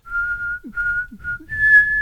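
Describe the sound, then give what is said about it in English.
A whistle given as a command to yaks sounds in four steady tones, the first three level and evenly spaced, the last higher, longer and louder, clear and alone. “With a whistle,”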